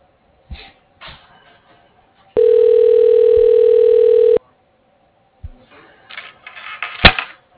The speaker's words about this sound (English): Calling that extension. Please wait.